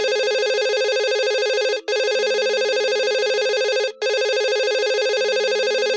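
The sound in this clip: A telephone rings with a steady electronic tone in three long bursts, separated by two brief breaks. The ring is loud and holds an even pitch.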